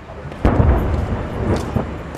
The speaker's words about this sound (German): Ein paar hundert Meter weiter feuern FSA-Milizionäre gerade aus einer Geschützstellung.